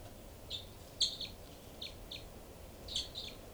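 Two birds calling: faint, high, thin chirps in a few short bursts scattered over steady background hiss.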